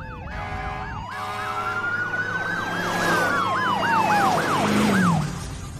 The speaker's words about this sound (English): Where are those cop cars going?